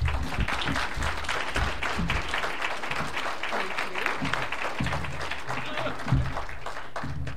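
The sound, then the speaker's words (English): Warm applause fills a bookstore author event as the crowd welcomes a historian, a dense and steady patter of many hands clapping throughout without a break. “Please give a warm welcome to Joseph Ellis.”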